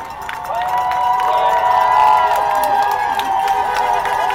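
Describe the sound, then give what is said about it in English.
Crowd dancing and cheering outside Trump Tower in Chicago, celebrating the end of the Trump presidency. Sustained, wavering high voices rise over a broad murmur of crowd noise, and the level swells slightly toward the middle. “While others danced and cheered outside Trump Tower in Chicago, bidding the Trump presidency a symbolic farewell.”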